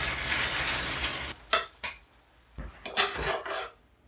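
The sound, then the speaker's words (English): Eggs frying in a pan with mushrooms, onions and cheese give a steady, dense sizzle, then a few short scraping and rasping sounds follow in quick bursts. “Made little spaces in amid all the mushrooms and onions to crack eggs into. Yeah. I'm cracking eggs in, putting cheese over it all, and covering it to melt it all and cook the eggs.”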